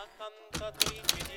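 Typewriter keys strike as an old man types small notes, a few sharp clacks and dull thuds sounding faintly over a quiet background.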